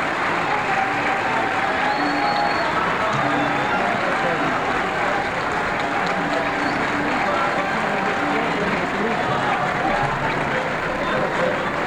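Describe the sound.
Crowd at a 1957 live concert in Qasr el-Nil calling for another song: a continuous roar of applause and many voices, dense and unchanging in loudness throughout.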